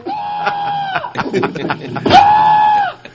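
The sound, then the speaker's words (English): A person imitates a caller's screaming with two long, shrill, wavering cries, like a bleat. Brief choppy vocal noises sit between the two cries. “don't you call here with that screaming?”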